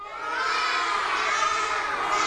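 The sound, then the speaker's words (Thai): A classroom of children imitates the caw of a crow, shouting together in a loud, sustained chorus of overlapping voices that holds steady from start to end. “กาเนี่ยมีลักษณะสีดำอาศัยอยู่รวมกันเป็นฝูงและลักษณะสำคัญของกาคืออะไรเอ่ยไหนลองทำท่าร้องด้วย1 2 3”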